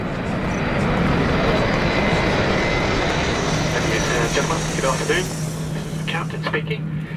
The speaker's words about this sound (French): ok, on va décoller